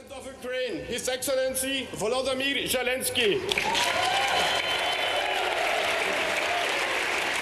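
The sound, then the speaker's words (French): An ovation breaks out as European parliamentarians in Brussels welcome a visiting wartime president, a dense, sustained wash of clapping and crowd noise that starts a few seconds in and holds steady to the end. “Ovation pour Volodymyr Zelensky, le président ukrainien accueilli en héros par les parlementaires européens.”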